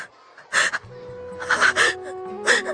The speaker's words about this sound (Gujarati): એને આચાર્યના રૂમમાંથી કોઈના રડવાનો અવાજ સંભળાયો